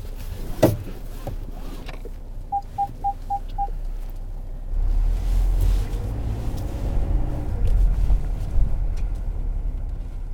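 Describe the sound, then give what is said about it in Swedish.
A hearse drives a coffin to the chapel. A row of five short, even electronic beeps comes first, then a low engine rumble grows stronger and carries on steadily to the end. “Kistan rullas in i bilen, en liten flagga på halvstång fästs där fram. Nu kör Raine kroppen till kapellet, den avlidnas näst sista anhalt.”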